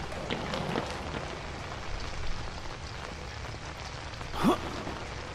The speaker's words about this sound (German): Lass dich nicht stören, Brehe. Und genießt den Regen.